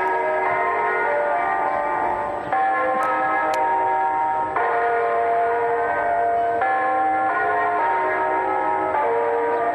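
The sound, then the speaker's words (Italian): Festive church bells ring in a loud, continuous peal, overlapping resonant tones blending together and shifting to a new chord every couple of seconds, with no talking. “sono campane a festa che insomma seguono le numerose campane a morto di questi ultimi 12 mesi”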